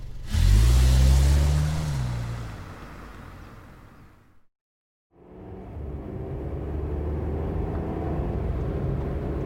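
A taxi cab drives with a steady engine rumble and road noise, loudest at the start, then cuts out completely for a brief moment before resuming as an even drone.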